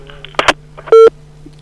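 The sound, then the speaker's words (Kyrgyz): A single short electronic beep from a phone line after a call connection drops, steady and fairly loud, following brief muffled speech sounds. “Байланыш дагы тактап койсоңуз болмок, бирок байланыш үзүлүп калды.”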